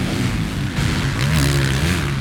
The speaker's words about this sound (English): The Chambers Racing machine really showing its strength there.